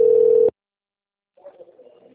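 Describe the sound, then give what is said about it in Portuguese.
Telephone ringback tone on a call that goes unanswered. One short, loud, flat-pitched beep breaks off into silence, followed by a faint muffled murmur. “chamando alguém atender, pelo jeito. Nem atendem.”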